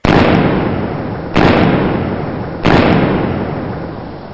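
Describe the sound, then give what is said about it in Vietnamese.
Three gunshots fired in quick succession during a sudden street fight: three loud, sharp bangs about a second and a quarter apart, each followed by a long decaying tail, with no voices. “Liền ba phát súng nổ rang nhanh như lửa lóe.”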